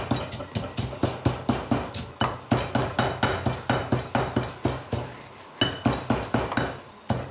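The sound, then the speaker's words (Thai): A pestle pounds sugar and salt in a mortar. Many steady, evenly spaced thuds come in a brisk rhythm, with one brief pause partway through before the pounding resumes. “ค่ะใส่น้ำตาลกับใส่เกลือลงไปนะมันก็ตำง่ายนะคะ มันมีฝืด”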